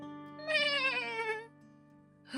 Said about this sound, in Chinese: 这个声音，这个声音我认得，是小小羊，是小小羊的声音。